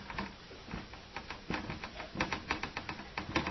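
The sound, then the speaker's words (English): Writing on a board: a run of light tapping and scratching strokes in an uneven, busy rhythm, faint, with no talk. “Then, having given us the circumstances, I better write that up here.”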